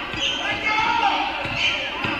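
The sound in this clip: A basketball dribbled around the top of the court during a game, its repeated dull thuds bouncing at an uneven pace beneath a commentator's steady play-by-play talk.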